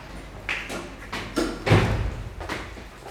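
A door in an apartment stairwell being opened: a series of dull thumps and soft knocks, with one heavier thud near the middle, and no voices.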